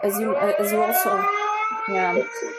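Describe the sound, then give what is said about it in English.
Air raid sirens wail in a steady, sustained tone with layered pitches, continuing under speech throughout. “that's air raids. We hear the sirens and may hear them again during this hour.”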